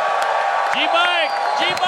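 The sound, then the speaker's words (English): Cheering and whooping from an audience greeting a comedian's stand-up comedy debut: a dense crowd roar with several rising and falling shouted whoops riding over it, steady and loud for about two seconds. “I want everyone to give a big, big round of applause, making her stand-up comedy debut.”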